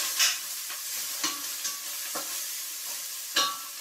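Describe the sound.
Onions frying in a pan: a faint, steady sizzle with a few sharp scrapes or clinks of stirring scattered irregularly over it.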